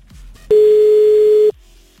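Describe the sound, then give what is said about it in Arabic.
A single steady ringback tone sounds on a phone call that goes unanswered. It is a loud, even mid-pitched tone lasting about one second, with only faint background noise before and after. “يا تالا يا تالا ردي يا تالا. طيب نرجع نتصل بعد شوي بتالا. ما ردت تالا.”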